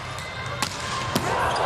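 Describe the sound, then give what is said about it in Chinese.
A volleyball serve is struck in a Japan team match, giving two sharp, hollow ball hits about half a second apart over dense, steady crowd noise. “好发球，啊，一传也顶住了。”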